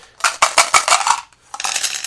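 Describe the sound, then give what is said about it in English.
Four dice rolled to generate a passphrase, rattling and clacking in a quick burst of bright clicks, then a brief pause and a second, shorter clatter. “And basically, we roll the dice again.”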